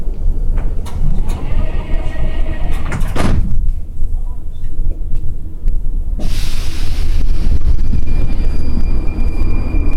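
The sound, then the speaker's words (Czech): Sliding doors of a metro train close with a sharp thump amid loud rumbling carriage noise, followed by a brief quieter lull and then a broad, sustained roar as the train moves. “Ukončete prosím výstup a nástup. Dveře se zavírají.”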